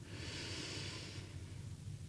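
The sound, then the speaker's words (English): Slow, deep breath drawn during a guided relaxation, a soft airy hiss that swells and then thins out after about a second, quiet and with no talking. “Now let's take a breath together as we begin to transition slowly, breathing in”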